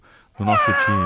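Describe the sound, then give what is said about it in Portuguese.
A single loud, drawn-out cat meow with a wavering tone follows a brief, faint voice at the start. “Um miado para o sargento Adalberto da Base Aérea de Santos, nosso ouvinte.”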